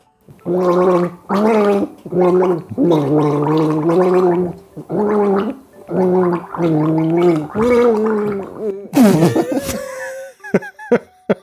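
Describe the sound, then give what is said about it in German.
Someone gargles a Christmas song, the bubbling voiced tones carrying a melody through a series of sustained, pitched phrases, then breaking into a few short sputters and splutters at the end. “Dann wollen wir mal nochmal gurgeln.”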